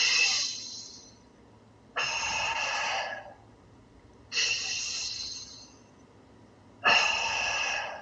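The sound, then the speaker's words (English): Deep breaths drawn in through the nose and let out through the mouth, the belly then chest rising on each inhale. Four evenly spaced, airy bursts, each starting loud and fading as the breath runs out, with quiet pauses between. “so that was a breath that was in through my nose and out of my mouth. As I inhaled through the nose, my belly rose, then my chest rose.”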